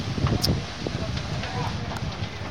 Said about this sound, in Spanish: Ayer a eso de las 2 del mediodía, teníamos este sonido. El viento, ¿eh? Ojo. El sonido de viento.